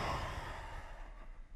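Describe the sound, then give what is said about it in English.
A deep breath is let out through an open mouth during a guided meditation: a soft, airy exhale that starts fuller and fades away gradually over about a second and a half. “Take a huge breath in. Open your mouth. Let it go.”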